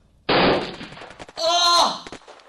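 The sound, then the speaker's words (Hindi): Gunfire in a battle where a soldier is hit: one sudden loud blast breaks into rapid crackling shots, then a shouting voice rises over the fading noise. “तुम्हें गोली लगी है, तुम्हें गोली लगी है भाई।”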